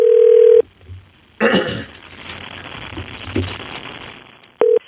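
A telephone dial tone hums steadily while a call is being placed. The tone stops and is followed by rustling and handling noise, then returns briefly at the end.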